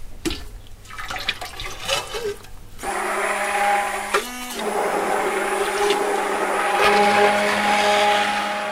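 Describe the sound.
A blender mixes lye and oils for homemade soap, starting a few seconds in with a loud, steady whirring drone that runs continuously to the end with a brief wobble partway through.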